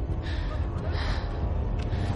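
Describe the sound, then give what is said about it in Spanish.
A woman breathes heavily and agitatedly amid an armed police shootout among stopped cars, a steady, continuous rasp of panting and gasps over a dense, noisy background. “respira agitada”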